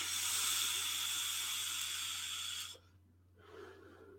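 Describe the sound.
Drawing on a vape tank, a Damn Vape DooM RTA rebuildable atomizer, gives a steady airy hiss lasting under three seconds that cuts off abruptly, followed by a faint, soft breathy sound.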